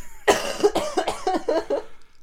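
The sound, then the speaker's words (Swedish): Coughing fit: several harsh, rough coughs in quick succession, moderately loud and alone, some with a voiced, throaty edge. “Ja, förlåt alla lyssnare för min hosta.”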